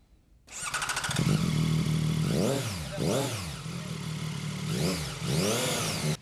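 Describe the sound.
A Chinese-made 820RR motorcycle engine, ridden in Hong Kong, starts, settles into a steady idle, then revs in a few sharp blips that rise and fall in pitch. The engine is loud and there is no talk.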